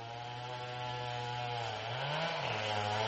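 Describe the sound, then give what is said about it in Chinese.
A chainsaw drones steadily while cutting trees in a forest, its motor note briefly climbing and then dropping back near the end. “Richard 在森林里听到伐木的链锯声音， 他就朝着链锯声音的方向走去”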